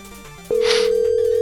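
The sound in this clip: Telephone dialing tone: one steady, loud, unbroken tone starts partway through and holds without change to the end. No one talks over it.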